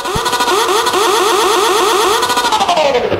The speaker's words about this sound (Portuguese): Estancou. Essa tua moto sempre estanga. Peraí, bora acelerar estancou, um pouquinho.